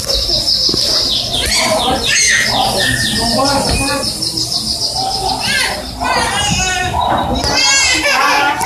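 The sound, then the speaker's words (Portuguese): Birds chirping and children talking and playing outdoors, a dense, continuous mix of high bird calls and lively kids' voices that runs loud throughout. “com os passarinhos, com as crianças falando”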